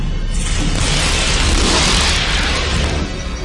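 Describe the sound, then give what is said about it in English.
A warning shot blasts at a spaceship in an audio drama, a loud, dense roaring burst that fills the whole clip and thins out slightly at the end. “What the hell are they shooting at us for?”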